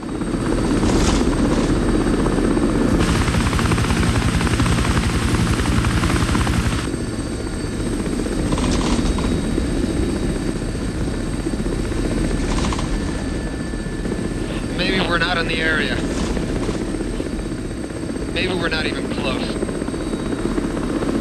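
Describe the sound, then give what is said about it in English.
A helicopter flies over a desolate canyon, its loud, steady rotor and engine drone continuing without a break. “The helicopter continues to scour miles and miles of desolate canyon.”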